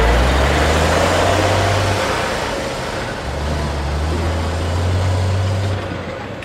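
A military bus engine drones as the bus heads onto the bridge over the Yalu River between North Korea and China. The low rumble is steady and fairly loud, its deep tone briefly dropping away midway before returning.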